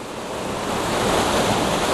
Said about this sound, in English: There's two levels to this waterfall, so I might just nip up and